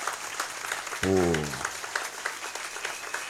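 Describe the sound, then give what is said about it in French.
An audience at a church gathering applauds to thank parents and helpers, a fairly soft patter of clapping throughout, with one voice rising briefly over it near the start. “Voilà, on va les acclamer pour leur dire sincèrement merci”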